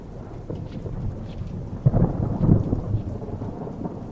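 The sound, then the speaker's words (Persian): Heavy rain pouring down in a courtyard, a dense, steady hiss with a low rumble of thunder swelling toward the middle, and no voices. “اوه چه بارونی شد.”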